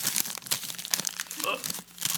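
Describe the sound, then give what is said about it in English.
Crinkling plastic wrapper of a freeze-dried ice cream sandwich being carefully unwrapped, bright crackly rustles coming in uneven bursts, with a voice briefly heard alongside. “It looks like the wrapper of like an actual ice cream sandwich, yeah. Like that you get frozen. Could do some ASMR, but I don't think anyone wants to hear that. No, we're cool with that on this. Okay. Everything's yeah, cool. Yeah, you can do that. Yeah, yeah. So you're unboxing.”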